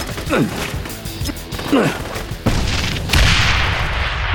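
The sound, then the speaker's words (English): Hand grenade explosions ring out as a few heavy booms and crashes with sharp onsets, the later blasts leaving a loud, sustained rumbling roar. “Your hand grenade seems to have made an impression on them. Maybe another one will discourage them from rushing the building. Let's see what two will do.”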